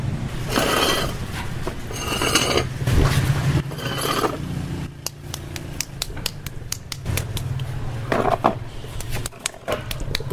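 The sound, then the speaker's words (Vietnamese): A turning potter's wheel shaping clay in Bát Tràng pottery village, Vietnam, gives a steady rough mechanical whirring rumble with scattered small clicks and knocks. “Đây là cháu muốn nặn gốm này Ở trên bàn xoay Đây là bàn xoay và đây là gọi là đất”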